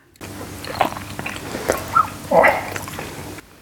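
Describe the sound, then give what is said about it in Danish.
Noisy chewing and biting while tasting food: a few soft, wet, squishy crunches spaced out over a quiet background, with no talk. “Nu ved jeg af erfaring, at folk bliver rasende, når man spiser med lyd på. Så det vil jeg godt lige sige undskyld for.”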